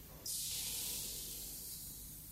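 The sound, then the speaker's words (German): Steam hisses from drops of liquid falling on a ring, a soft, airy high hiss that starts abruptly and then continues steadily, easing slightly, with no voices. “Vorsichtig träufelt er aus der Dose einige Tropfen Flüssigkeit auf einen Ring.”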